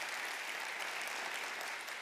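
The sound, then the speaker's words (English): A church audience claps to welcome viewers watching online, a steady, even wash of applause, faint and continuous throughout. “Would you put your hands together to welcome those who are watching right now as a way of saying, hey, we see you.”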